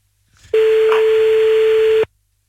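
Telephone ringback tone on a call back to a mother: a single steady, fairly loud tone lasting about a second and a half, starting and stopping abruptly, with no talk over it.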